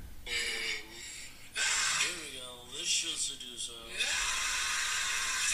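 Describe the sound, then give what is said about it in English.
A giraffe mating call played back from a video: breathy, snorting groans with wavering pitch over a constant hiss, rising and falling in several uneven swells. “You searched giraffe mating call”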